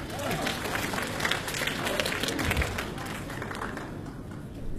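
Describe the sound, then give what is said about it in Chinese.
Theatre audience applause greets the opening act of an evening comedy and folk-performance show, a dense, steady wash of clapping that holds loud throughout and fades only slightly toward the end. “快板书《人间真情》，大家掌声有请。”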